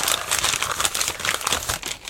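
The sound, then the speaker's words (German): Wrapping paper crinkles and rustles continuously as an Easter gift is unwrapped, a dense, busy crackle that stays fairly steady throughout with no voices. “Na los, auspacken und ausprobieren.”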